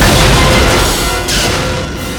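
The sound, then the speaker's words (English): A fuel truck explodes on a bridge: a loud, broad roaring blast that rumbles on and slowly fades. No voices are heard. “The fuel truck blows up. The explosion wrecks the bridge.”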